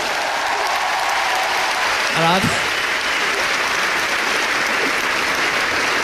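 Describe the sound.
Audience applause at a live stage show, a steady, even roar of clapping throughout, broken only by a short vocal exclamation just after the midpoint.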